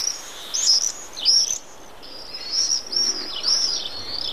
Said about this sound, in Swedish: Här på slutet hörde vi hur tornseglaren låter.